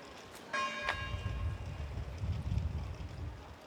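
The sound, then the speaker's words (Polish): A church bell rings outdoors with two clear struck tones early on that ring out and fade, followed by a steady low rumble of wind on the microphone. “Nie wiem, czy słyszeliście bicie dzwonu kościelnego.”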